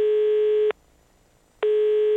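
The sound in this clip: Ringback tone of an outgoing telephone call: a steady, buzzy, mid-pitched tone that stops briefly and then starts again.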